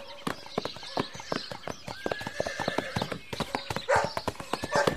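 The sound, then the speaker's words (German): Horses clip-clop at a light trot toward the dunes, with many quick, even hoofbeats in a steady rhythm. A horse whinnies partway through, and the hoofbeats continue throughout. “Also, leichter Trab bis zu den Dünen, okay?”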